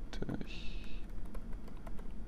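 Typing on a computer keyboard while technical requirements are entered into a document: an irregular patter of sharp key clicks, moderately loud, with a short tonal hum near the start.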